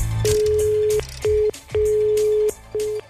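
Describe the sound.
Telephone keypad tones as a number is dialed for a call: four steady electronic beeps of uneven length, the third clearly the longest, separated by short gaps, with no talk.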